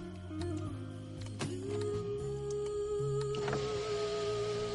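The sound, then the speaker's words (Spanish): A car's electric window motor whirs as the window is lowered, giving a steady mechanical whine with shifting tones that runs for about five seconds. “El hombre baja la ventanilla, saca la cabeza mirando hacia el vehículo”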